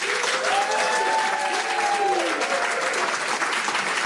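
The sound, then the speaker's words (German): Audience applause welcomes a singer before a live in-studio performance. The clapping is dense and steady, with many hands blending into an even wash that holds at the same level for about four seconds, with no talk over it. “einen riesigen Applaus bitte”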